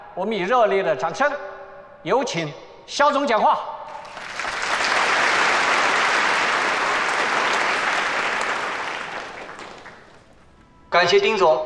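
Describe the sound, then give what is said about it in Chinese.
Warm applause at a Huiquan Group corporate gala welcomes the company head to the stage. Talk comes first, then about six seconds of steady, full clapping swell and fade before voices return. “我们以热烈的掌声，有请肖总讲话。”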